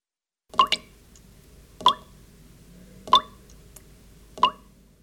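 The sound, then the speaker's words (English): Water drips in five clear, ringing plops: two in quick succession, then three single drops spaced about a second apart over near silence. “Drip.”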